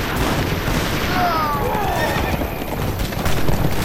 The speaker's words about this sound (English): The hard-riding outlaw gunslinger started thundering up to Beans' position.